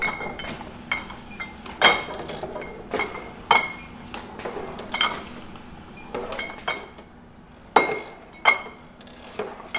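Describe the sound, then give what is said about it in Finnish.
Beer-bottling machine filling bottles, capping them and labelling them: many glassy clinks and sharp mechanical knocks at irregular intervals, with a few louder clanks standing out over a low, steady hum. “Kone valuttaa olutta pulloon, lyö korkin kiinni ja etiketin kylkeen.”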